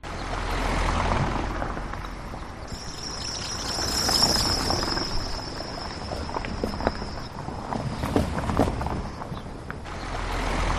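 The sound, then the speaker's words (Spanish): Loose paving tiles on an avenue in Mérida clatter as traffic drives over them: a steady rumble of passing vehicles with scattered sharp clacks, and a thin, high insect-like chirring through the middle. “Por si no lo reconoces, son las baldosas de la Avenida de Extremadura, en la nueva Plaza de Santa Eulalia.”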